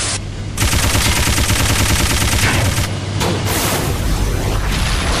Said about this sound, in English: Machine gun. I think it moves around, takes more shots to blow up.